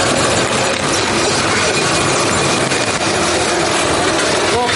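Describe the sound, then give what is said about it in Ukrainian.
Steady, loud mechanical whirring and rumbling from a Termit tracked ground robot as it drives itself onto a car trailer. The broad noise runs without a break for the whole stretch. “Вправний терміт самотужки заїжджає на автопричіп.”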